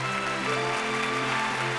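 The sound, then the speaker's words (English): Applause for the host of an awards show evening, a steady wash of clapping at an even, moderate level across the short stretch, with sustained tones running beneath it. “please give a big round of friendly applause for your host this evening, Entertainment This Hour's PJ Little Pricky.”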